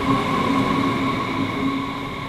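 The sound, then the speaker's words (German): Rail noise at the main railway station in Wiesbaden: a loud, steady drone with sustained high whining tones over a low rumble, fairly even throughout and without voices. “Ich bin jetzt in Wiesbaden am Hauptbahnhof und möchte mit dem Bus nach Limburg.”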